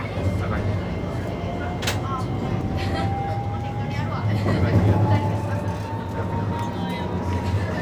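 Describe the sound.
Electric commuter train departing, a motor whine climbing slowly and steadily in pitch over a constant loud rumble of running gear.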